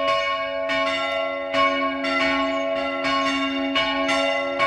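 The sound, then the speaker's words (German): Church bells ringing in a village in Burgenland, with rich, overlapping metallic tones that ring on between many steady, repeated strikes, loud and without any voices. “Die Frage in Guten Morgen Burgenland lautet nämlich, wo läuten diese Kirchenglocken?”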